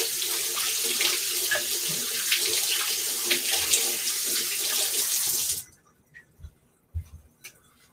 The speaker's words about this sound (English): Okay, I'm gonna wash my hands.